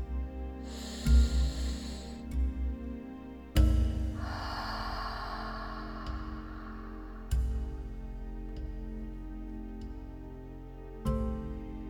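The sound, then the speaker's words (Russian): Soft exhales through the mouth during a guided breathing and mindfulness exercise, two gentle, airy breaths over a low, steady drone. “И мягкий выдох через рот. И еще раз.”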